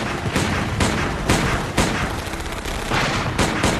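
A volley of gunfire rings out as many sharp, loud shots, spaced unevenly and sometimes overlapping, over a constant rough background din.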